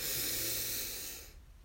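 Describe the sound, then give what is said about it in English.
A deep breath during a guided meditation, a long, steady, breathy hiss that fades out after about a second and a half. “We'll take 3 deep breaths together as we open our meditation. So breathe in and out.”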